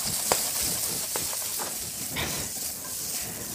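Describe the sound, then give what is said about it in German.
Onions and bacon fry in a pan with a steady, faint sizzling hiss, broken by a few sharp pops and crackles. “Die Zwiebeln und Speck jetzt einfach so lange braten, bis die Zwiebeln A gar sind und eine leichte Färbung, eine leichte Bräunung bekommen.”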